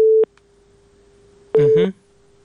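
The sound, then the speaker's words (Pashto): A telephone busy tone follows the dropped call. A steady mid-pitched beep cuts off, a faint hum carries on, and then a second beep sounds, overlapped by a short burst of voice. “اړیکې وشلې ده فکر کوم”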